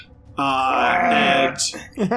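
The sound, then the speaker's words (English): A voice imitates a robot-like dinosaur noise with a long, droning groan of rich harmonics, then breaks off into a short breathy hiss and a brief wavering vocal sound. “rears up once again with the robot at the tip of its head, and it makes a sort of robot-like dinosaur noise.”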